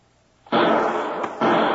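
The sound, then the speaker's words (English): Two loud gunshots fired wildly from a lower window, each a harsh, dense burst with a lingering tail, the second coming about a second after the first. “Well, I guess he heard us. Shots came from that lower window. Yeah, and he hasn't located us. He was firing wildly.”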